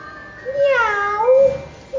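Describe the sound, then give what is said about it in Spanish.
A cat meowing, one drawn-out, tonal meow whose pitch dips and then rises, followed by a short pause and the start of another sound at the very end. “¡Miau! Maulló el gato.”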